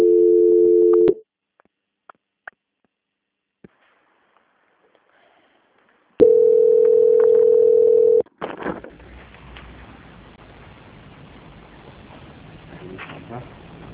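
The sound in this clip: Telephone line tone while a call is being transferred: a steady mid-pitched tone, then several seconds of near silence, then a second identical tone, followed by ongoing line noise.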